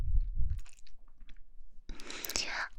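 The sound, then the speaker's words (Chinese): Quiet chewing of a sandwich filled with bacon and cheese: soft low bites at first, then a louder crisp crunching burst near the end. “你快，你再试试三明治啊，里面啊可是加了培根和芝士呢。吃一口，嗯，”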